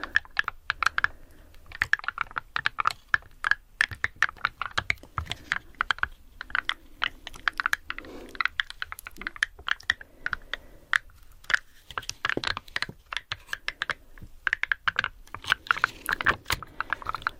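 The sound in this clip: Someone types on a keyboard whose keys carry slightly raised 3D stickers, producing many quick, sharp, somewhat odd clicks in irregular bursts with brief pauses, steady in loudness throughout.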